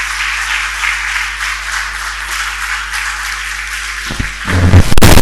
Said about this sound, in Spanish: Un aplauso para el pastor